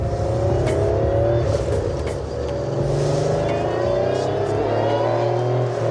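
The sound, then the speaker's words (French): A Porsche-based sports car engine revs loudly and steadily for about six seconds. It makes a dense, buzzy mechanical drone with a slight dip midway, and no voices are heard. “Le son que vous entendez là, c'est un peu comme si on faisait tourner un moteur de Porsche avec une scie circulaire en même temps, le tout dans une boîte de conserve.”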